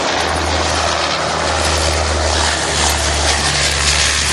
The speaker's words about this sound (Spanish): Un avión, por suerte, te localiza.